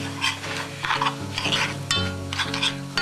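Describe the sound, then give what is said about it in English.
Stirring kasha coated with egg in a pan: repeated scraping strokes with squeaky, tonal rubbing and a light sizzle, steady and fairly loud throughout, with no voices. “make sure you stir it around and get it all covered. You can see by the color changing when the egg gets the kasha covered.”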